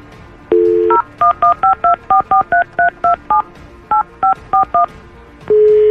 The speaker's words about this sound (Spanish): vamos a marcar hasta Campeche